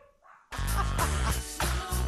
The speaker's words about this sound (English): And my dogs are barking because I knocked it.